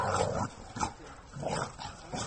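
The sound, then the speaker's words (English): Dogs at an animal shelter for once-abandoned street dogs in Istanbul growl, yip and bark in play. The rough, low-level bursts come in a few uneven rounds. “All these dogs were once abandoned and unwanted on the streets of Istanbul.”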